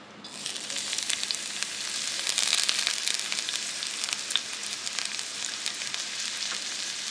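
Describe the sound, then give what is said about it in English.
Chopped onions sizzle in hot olive oil in a big red Dutch oven, a steady, bright hiss dotted with small crackles and pops, continuous and unbroken with no voices. “poured some olive oil into her big red Dutch oven. Sounds lit. There we go. And dropped the chopped onions into the hot olive oil.”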